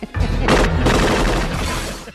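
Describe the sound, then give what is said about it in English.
Gunfire shooting at glass in a movie scene, a loud, dense and continuous barrage of shots with harsh crashing bursts, filling the whole clip without speech. “Schießt den Fenster. Shoot the glass.”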